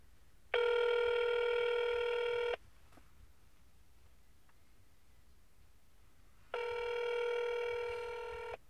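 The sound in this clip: Telephone tones in an automated phone menu after pressing 3: two long, steady, buzzy electronic tones of about two seconds each, separated by a quiet gap.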